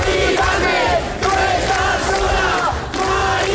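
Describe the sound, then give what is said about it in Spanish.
A street protest crowd chanting at an overnight sit-in against a tenant's eviction: loud massed voices in rhythmic phrases, with brief dips between chants. “Este es el sonido de la protesta que durante toda la noche ha acompañado a Mari Carmen.”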